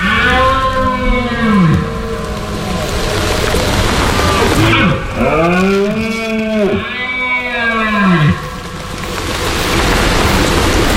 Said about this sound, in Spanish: habrá empezado a sonar en el monte el sonido de la berrea de los ciervos. Ese es el sonido de septiembre hasta bien entrado octubre.